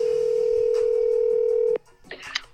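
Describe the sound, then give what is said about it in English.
Steady telephone tone hums loudly for under two seconds, then cuts off abruptly, followed by faint clicks and line noise. “Let's give the Petty a call, see what he's got dialed up for us this week.”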